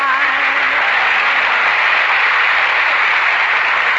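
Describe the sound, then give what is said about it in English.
Steady, dense audience applause holds at an even level for the whole stretch, and a voice is faintly audible at the start. “Say, did you hear that applause?”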